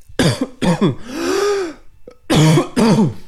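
A coughing fit: several harsh, loud coughs and throat-clearing bursts, with a longer strained, voiced stretch in the middle before two more rough bursts close the sequence.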